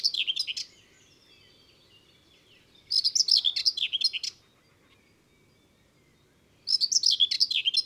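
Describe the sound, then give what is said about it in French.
A common whitethroat sings from a dense bush in three short, scratchy, hurried bursts of high-pitched song, with quiet pauses between them. “voici la fauvette grisette, qu'on reconnaît à ses courtes strophes, grinçante, nerveuse, précipitée.”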